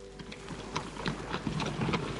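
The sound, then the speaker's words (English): Hooves of a horse-drawn stagecoach clip-clop along the Hartford to Litchfield road through a small Connecticut village, a fairly quiet, uneven run of many knocking steps over a low rumble. “The stagecoach from Hartford to Litchfield passed through the little Connecticut village on its way west”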